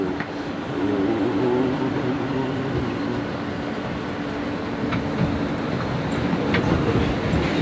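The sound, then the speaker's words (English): A train locomotive runs on rails with a steady, loud rumble and broad rolling noise that holds evenly throughout, with faint rhythmic rail clatter. “On a locomotive, locomotive.”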